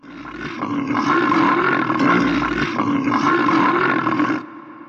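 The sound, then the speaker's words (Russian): A bear roars in agony as jaws clamp onto its left eye: one loud, sustained, rough roar with a throaty, growling texture, lasting about four seconds before cutting off. “Челюсти сомкнулись, медведь взревел. Это был не просто звук, это был вопль.”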